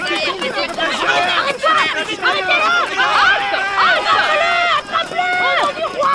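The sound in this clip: Running footsteps of a figure fleeing a royal patrol and chasing crowd in a dramatised story, heard under loud, continuous shouting and excited crowd voices.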